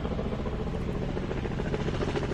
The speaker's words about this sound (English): hold on, we have a helicopter.